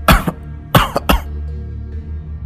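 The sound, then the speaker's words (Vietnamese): A man coughs, worsening as he tries to speak: a few harsh, loud coughs in two quick bursts that then fade into quiet, with no speech. “Thầy Lương càng nói thì lại càng ho nhiều hơn.”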